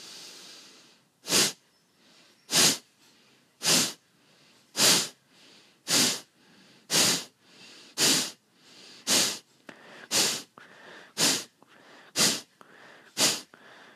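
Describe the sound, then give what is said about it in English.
Forceful nasal exhalations during a breathing exercise: twelve sharp, hissing puffs of air in an even, steady rhythm, each short and loud with quiet gaps between them. “And another deep inhalation, and when exhaling, starting the thrusts.”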